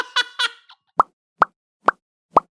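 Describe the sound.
A voice imitates a bubble popping with mouth pops: four short, hollow pops evenly spaced, following a brief burst of vocal sound.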